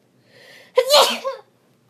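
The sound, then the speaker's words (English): A single loud sneeze from a person getting over a cold, preceded by a short, soft intake of breath, then a sharp explosive burst and a brief trailing exhale. “I have to sneeze.”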